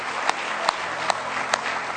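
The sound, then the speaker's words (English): Congregation hand clapping in praise at a church service: sharp claps fall on a steady, even beat over a dense, continuous wash of crowd noise. “Give him a real good hand clap of praise.”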